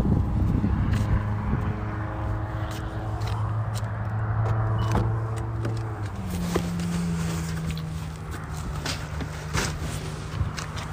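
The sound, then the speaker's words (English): A security patrol car drives past with a steady engine drone and a shifting tone, plus a few scattered sharp clicks and knocks. “Security, public safety. Driving around. That's good to see. I know we got some security, top flight security of the world driving around here.”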